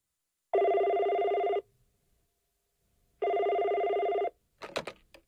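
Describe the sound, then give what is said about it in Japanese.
A telephone rings in two long, even bursts of a bright, buzzing tone separated by a silent gap, loud and alone, with a short voice starting just after the second ring. “もしもし、テレホン人生相談です。”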